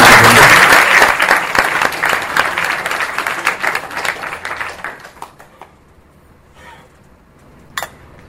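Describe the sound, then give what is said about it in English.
Audience applause at a spiritual initiation ceremony: loud, dense clapping that thins and fades over about five seconds, leaving near silence. “Let's give everyone a hand.”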